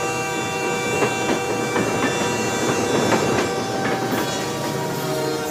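A train runs along the Santa Fe railway main line past a small rural settlement, a steady broad rumble with faint rhythmic clicking of wheels throughout, continuous and moderately loud with no talk.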